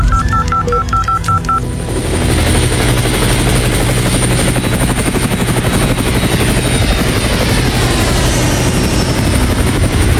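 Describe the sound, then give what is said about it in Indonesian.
A helicopter readied for an emergency mission after a village disaster drones steadily and loudly throughout, its rotor noise constant, with a short run of electronic phone-style beeps at the start. “Kontak markas besar dan siapkan helikopter sekarang.”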